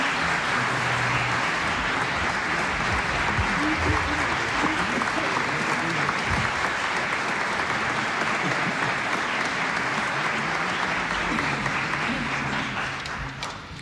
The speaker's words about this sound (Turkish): Alkışlarımız bu vaadimizi yerine getirecek ses ve saz sanatçılarımız ve Şef Zafer Gündoğdu için.